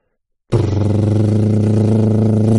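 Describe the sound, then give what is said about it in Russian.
Deep, powerful motorcycle engine rumble that starts abruptly after a short silence, then holds a loud, steady, throbbing drone with no change in pitch. “басовитый звук мощного мотоциклетного мотора не подходит”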